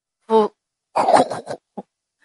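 A deliberately fake cough from a young man, made of a short voiced note, then a longer rasping burst of several pulses, and a brief final sound, heard alone.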